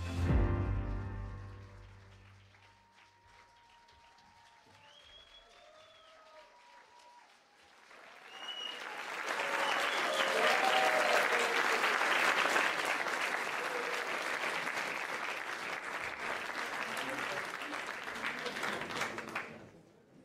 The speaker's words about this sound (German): Давай ще ещё поаплодируем им, они молодцы. Lass uns noch mehr Applaus geben.